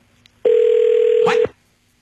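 An outgoing telephone call rings once: a single steady electronic tone of a little over a second stops sharply and is followed by near silence.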